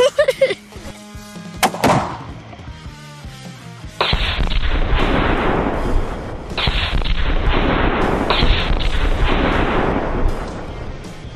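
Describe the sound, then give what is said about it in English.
A hunting rifle shot at a moose: a sharp report early on, then loud, sustained booming rumble that rolls on for several seconds, with tonal, music-like sounds at the start. “I had a perfectly placed shot. I think we got him.”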